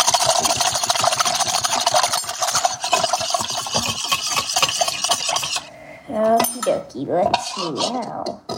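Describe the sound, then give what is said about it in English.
Whisking sugar into warm water in a bowl: a rapid, steady run of metallic clicks and scraping against the bowl that continues for several seconds and then stops. “And so you can add the remaining 1/2 cup of sugar and whisk until it's all dissolved again.”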